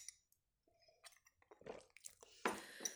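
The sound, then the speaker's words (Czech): Tea being sipped from a cup: a few soft slurping sips and light clinks, then a louder sip near the end, heard alone without talk. “A teď se omlouvám, jestli jenom napiju čaje.”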